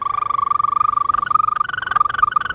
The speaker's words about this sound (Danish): Københavns næste metrolinje M5 skal gå gennem et område, hvor den truede grønbroede tudse tidligere er blevet spottet. Den lyder sådan her.